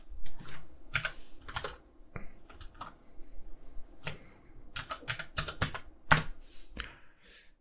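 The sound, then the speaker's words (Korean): Crisp computer keyboard key clicks as the Ctrl+Shift+S shortcut is pressed to save an animation scene file as a copy. Many sharp, irregular taps in quick bursts, alone without voices. “컨트롤 시프트 S 파일 세이브 씬 애즈 눌러서 애니메이션 파일을 따로 만들어 주겠습니다.”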